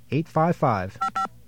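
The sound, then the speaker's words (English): Touch-tone beeps from a telephone keypad as a toll-free number is dialed: a few short bursts in quick succession, the last two steady, clear dual tones, preceded by louder voice-like sounds. “There's our trusty dial tone. And the number we're going to call is”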